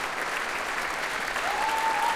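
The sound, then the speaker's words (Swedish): A concert audience applauds a symphony orchestra in a concert hall with dense, steady clapping that swells slightly toward the end as more listeners stand. “allt så som applådrundan går runt så ställer sig faktiskt fler och fler upp här i Berwaldhallen och applåderar Sveriges Radios symfoniorkester”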